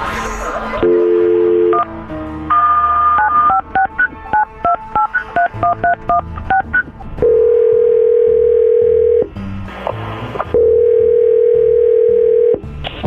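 Telephone keypad tones while redialing a call: a short tone, then a quick run of many bright keypad beeps, followed by two long steady tones separated by a short gap, with no talking.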